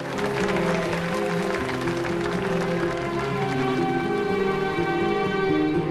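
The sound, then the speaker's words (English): An audience standing and clapping, a steady rain-like patter of many hands over sustained tonal music that holds at an even level throughout. “Some of the audience stand and clap.”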